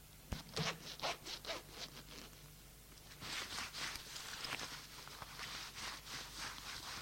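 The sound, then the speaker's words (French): A trouser fly zipper being pulled open makes a quick series of short rasping ticks, followed by a longer stretch of softer rustling and rubbing. Faint overall, with no speech. “Samir se dégage et ouvre la fermeture glissière de sa braguette”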